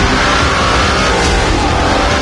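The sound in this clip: Loud, steady engine roar from a Lamborghini GT sports car, a dense, unbroken rumble that stays at a constant level throughout.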